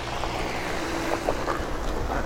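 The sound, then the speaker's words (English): A post van drives across a field, giving a faint, steady low engine rumble mixed with soft wind noise, with no clear change in level. “It's a post van. Yeah. Driving right across the field.”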